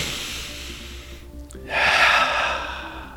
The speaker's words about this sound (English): And now I will take a big inhale